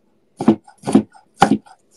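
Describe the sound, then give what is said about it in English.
A knife in need of sharpening chops and minces garlic with four crisp, evenly spaced strikes, each a short woody knock with a bright edge, loud and alone with silence between them. “More minced garlic never hurt anybody. I should sharpen this knife.”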